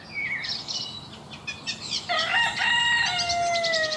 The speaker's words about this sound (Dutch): En een haan.